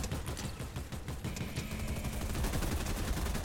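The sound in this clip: Gunfire in a ranked duos video game match: many shots fire in rapid succession, forming a dense, loud, steady burst that continues through the whole stretch.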